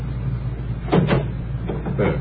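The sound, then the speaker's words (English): A taxi's car door being opened, heard as a few short mechanical clunks and clicks over a steady low hum. “would you mind opening the door?”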